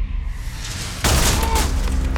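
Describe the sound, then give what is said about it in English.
Gunfire and exploding stun grenades fill a house during a raid, a dense, continuous crackling roar that jumps into a sudden louder burst about a second in and stays intense. “Immediately, there's gunfire on every floor. Stun grenades explode. The noise is deafening.”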